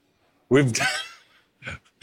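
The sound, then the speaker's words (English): A person gives a long, drawn-out voiced yawn that rises and then trails off breathily. Two short, quieter breathy sounds follow. “Don't mind me just really yawning.”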